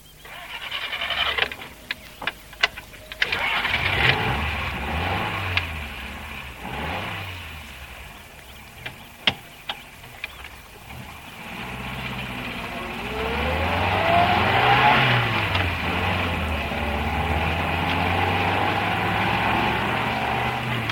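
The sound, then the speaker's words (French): A car is driven to run in its new engine. The motor revs up and eases off several times, its pitch climbing and dropping in long swells, with a few sharp clicks and no voices. “Nous déjeunons en forêt de Rambouillet, on va rôder... Nous allons rôder la voiture.”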